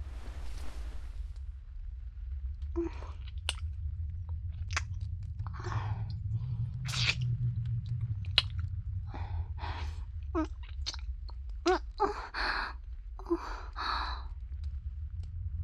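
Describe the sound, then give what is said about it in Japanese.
Kissing sounds: many short, wet lip smacks in an irregular sequence, some louder than others, set over a low, steady hum. “口づけはお気に召しませんでしたか。お気に召していただけたのですね。”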